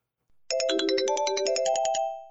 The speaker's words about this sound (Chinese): 不开玩笑了，我接个电话。